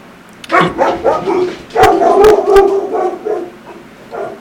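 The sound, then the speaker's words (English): Dogs barking behind a closed door let out a loud, choppy flurry of barks and yips in uneven bursts, pausing briefly before a final bark near the end. “that was actually my dogs in the background, if you heard them. I apologize for that. They're on the other side of my door.”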